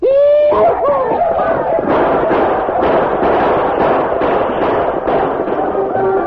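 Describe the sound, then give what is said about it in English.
Riders attacking a fort yell and shoot, starting with a high whooping cry that leads into a loud, sustained mass of shouting voices. Many sharp gunshot-like pops run through the whole stretch. “We'll ride over the ridge yelling and shooting to draw their fire.”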